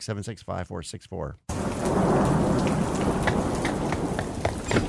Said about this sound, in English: Our lit sign must have shorted out from all this rain.